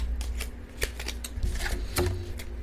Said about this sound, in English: And as I'm cleaning up the cards, I'm checking to see if there's any other ones I need to take.